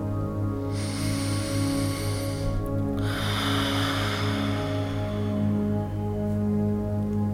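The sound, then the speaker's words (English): A slow breathing exercise: a soft, airy inhale through the nose, a brief pause, then a longer hissing exhale through the mouth, set against a steady low tonal hum. “inhale through the nose and exhale longer through the mouth”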